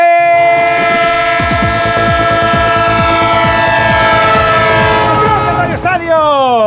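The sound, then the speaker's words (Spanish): Train sound effect with a loud horn: a steady, chord-like horn blast rings out over repeated clacking of wheels on rails, and the horn pitch slides and wavers near the end. “El tren de Onda Cero que no para, el tren que te sigue”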